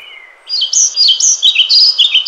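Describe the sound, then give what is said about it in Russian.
Bird singing a rapid, high twittering phrase of bright chirps and trills that runs continuously after a short quieter lead-in. “Ишь ты, какая требовательная птица!”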